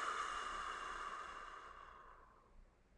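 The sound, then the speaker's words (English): A long, slow breath out through the mouth during a guided breathing exercise, soft and airy, fading away over about three seconds. “Three breaths to close our practice, in through the nose, Out through the mouth.”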